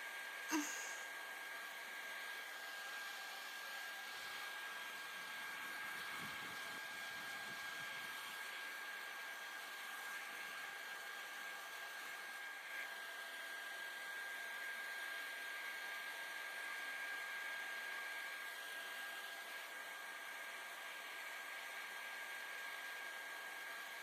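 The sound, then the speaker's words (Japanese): A hair dryer blows on someone's hair, producing a steady, fairly faint whirring hum that holds at an even level for the whole stretch without any talk. “髪の毛熱くない？ じゃあこのまま乾かしていくね。”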